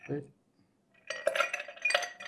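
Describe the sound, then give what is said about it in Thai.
Ice is poured into a chilled glass while a gin cocktail is being made, giving a clustered run of bright clinks and rattles. A brief voice comes just before, followed by a short quiet gap. “เทน้ำแข็งไปก่อนนะครับ”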